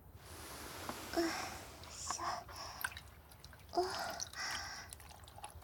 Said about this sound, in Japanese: こっちの耳も、おしぼりから始めていきますね。